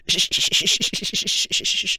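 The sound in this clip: Sandpaper sanding, played as a sound in a guessing game: many quick back-and-forth raspy strokes in a steady rhythm, bright and scratchy, fairly quiet and with no talk over it.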